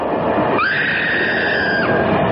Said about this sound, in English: I should like to remind passengers that we shall soon be going into a tunnel, at which point all the lights will go out, to be followed very shortly afterwards by a piercing scream.